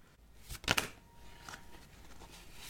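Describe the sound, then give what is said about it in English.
Tarot cards being shuffled make soft papery rustling and flicking. A quick, louder burst of riffling comes early, then lighter, scattered shuffling continues faintly to the end, with no voices. “I am going to begin shuffling our cards for today”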